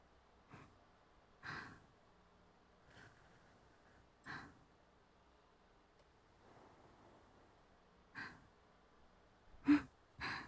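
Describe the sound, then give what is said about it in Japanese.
Blowing on hot food to cool it: several soft, airy puffs of breath at irregular intervals with quiet pauses between them. Most are faint, and the last few come closer together and louder. “いつもやってあげてたじゃん。こうやってふうふうって。”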